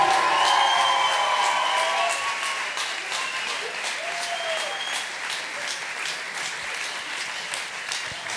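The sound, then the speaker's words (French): An audience applauds and cheers for the performers at the end of a show, with clapping mixed with whoops and shouts. It is loudest at the start and eases off gradually. “Ouais, bravo tout le monde. Assia, Alessia, Kezia, Zach. Un peu plus de bruit pour eux, s'il vous plaît.”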